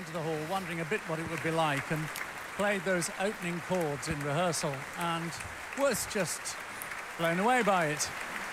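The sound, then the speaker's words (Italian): A classical concert audience applauding the orchestra and soloist, a continuous rain-like patter of clapping heard under a voice that talks throughout. “molti applausi per l'orchestra e per il solista.”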